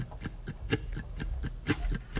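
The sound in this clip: A mandolin imitating a ticking clock with muted, percussive plucks in a steady, even rhythm, played softly throughout.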